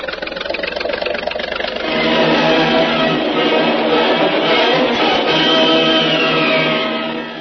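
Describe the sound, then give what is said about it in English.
A motor launch's engine drones as the boat moves through a dark cave. The sound is loud, steady and even, a constant rumbling hum that swells slightly after the first couple of seconds and holds without breaks. “Cautiously, the motor launch, piloted by Jungle Jim, feels its way through the dark, treacherous cave toward the sunlit entrance.”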